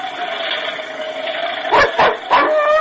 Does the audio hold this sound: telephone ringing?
no